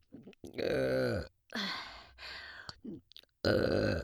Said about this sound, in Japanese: ほら、お待ちかねのみんなのオナニー専用エロゲップですよ。